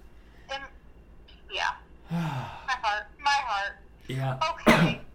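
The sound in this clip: A coughing fit of several harsh coughs in an irregular rhythm, mixed with gasping breaths and throat clearing, ending in one loud burst of cough.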